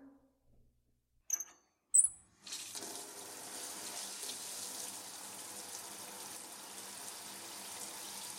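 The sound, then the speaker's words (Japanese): Running water rinses shampoo off hair, starting after a few brief knocks and a short quiet spell, then settling into a steady, even hiss of flowing water with no voices. “あとついでに頭のシャンプーも流しとくね。”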